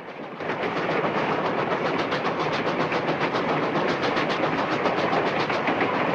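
A moving train running on the tracks: a loud, continuous roar with a rapid, regular rattling clatter throughout. It rises to full level within the first second, with no voices.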